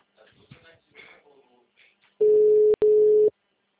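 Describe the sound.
Telephone ringing tone: a steady mid-pitched electronic tone that sounds for about a second with one brief break, heard on its own after a stretch of faint, indistinct noise.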